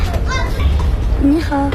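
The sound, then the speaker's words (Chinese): Children play in the sunlit alleys of an old town, with high-pitched chattering voices and calls over a steady, loud low rumble. “古城中阳光洒在巷道里，孩子们穿梭嬉戏”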